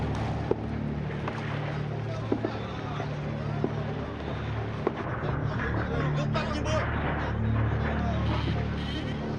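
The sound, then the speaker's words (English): Steady low drone of a boat's turbocharged 650-horsepower Detroit diesel engine runs throughout, with a few faint clicks and bursts of noise on top. “The Detroit diesel, turbocharged, 650 horsepower. We can hit 21 knots, we have to.”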